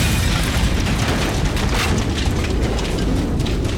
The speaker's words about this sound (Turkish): Küçük tüp bomba gibi patladı. Yer yerinden oynadı.